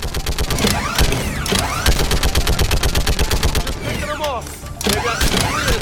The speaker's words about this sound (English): So it's got a little bit of a spin-up time. And it's got 50 bullets before it has to reload. But it looks like it's got unlimited clips.